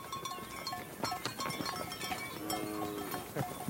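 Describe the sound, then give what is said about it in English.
A Maasai livestock herd is brought into a thorn-bush boma at night, with goat- and sheep-like bleats and clinking bells. The sounds are faint and scattered over a constant rustling background. “Every night, after grazing, Stephen brings his entire herd inside a circular fortress made of thorn bushes, called a boma.”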